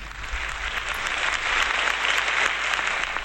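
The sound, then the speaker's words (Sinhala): Audience applause welcomes a veteran singer at a song concert, a dense, steady clapping that swells slightly toward the middle and carries on throughout. “අපි හොඳ අත්පොත් සම්ප්‍රසාදයකින් ආරාධනා කරමු TM Jayaratne ප්‍රවීණ ගායන ශිල්පියාණන්ට”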